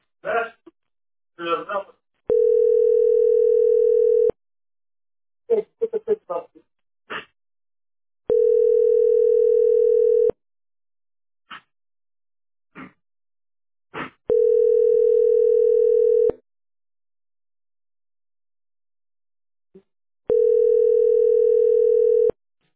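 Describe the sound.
A telephone ringback tone sounds for an unanswered call: four long, steady, identical beeps of about two seconds each, evenly spaced, with short bursts of voice sounds in the gaps between them.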